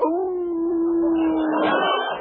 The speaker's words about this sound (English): over there in that doghouse. A jail dog.